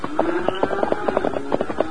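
A horse gallops as its rider dashes out of town toward the hills, giving quick, rhythmic hoofbeats in many rapid pulses over a sustained low tone.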